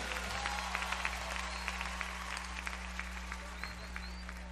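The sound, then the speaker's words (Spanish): Steady crowd applause, an even patter of many hands clapping at a moderate level over a low constant hum, holding without a clear rise or fall. “fuertes aplausos para el que se lo merece.”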